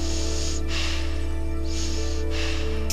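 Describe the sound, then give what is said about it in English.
A person draws deep, slow breaths in through the nose to calm down. A few soft, airy passes rise and fade over a steady low hum. “When I need to calm down, I take deep breaths. I breathe in through my nose.”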